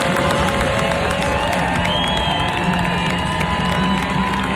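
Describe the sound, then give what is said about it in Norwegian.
A crowd in the stands cheers and applauds Norway's national football team during an open training session in bright sunshine, a steady, dense roar of voices and clapping throughout. “Landslaget gjennomførte en åpen trening i strålende solskinn, og fra tribunen så fikk det norske landslaget en voldsomt hyllest i går.”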